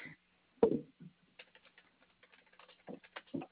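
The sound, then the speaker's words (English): Faint, irregular clicking of fingers typing on a computer keyboard, a quick scatter of soft keystrokes with a few slightly louder taps among them. “You type so fast.”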